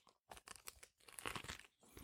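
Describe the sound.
Someone bites into and chews a çiğ köfte wrap rolled in dürüm bread: a few faint bursts of crunching and moist chewing separated by short pauses.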